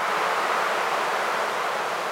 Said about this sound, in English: And for the high frequencies, we took a sample of wind from Mammoth Lakes.